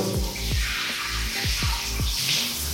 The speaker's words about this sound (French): Bon, il y a de l'eau.